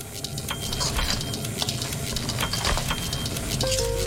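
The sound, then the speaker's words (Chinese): Shrimp roe is stir-fried in a dry wok over low heat with a few drops of Shaoxing wine. Soft, steady scraping and rustling strokes repeat throughout at a moderate, even level, with no voices. “小火、干锅、几滴绍兴老酒、三个小时的翻炒”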